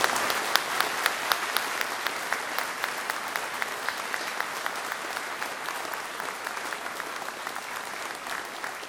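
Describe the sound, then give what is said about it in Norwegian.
Applause fills a dance-band church service in Vágur, Faroe Islands. The clapping is steady and settles into a regular rhythmic beat throughout. “Applaus”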